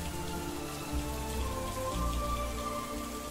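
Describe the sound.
Rain pouring during a wind storm over a banana grove, a steady, dense hiss of drops that stays loud and unbroken throughout, with no voices.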